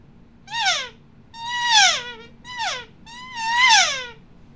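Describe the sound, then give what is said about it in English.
An elk calf call is made by inhaling on a Phelps diaphragm call, giving four high, squealing mews. Each mew slides downward in pitch, and short and drawn-out calls alternate. “But instead of pushing air out, you're going to inhale. So it sounds like this, makes perfect calf sounds.”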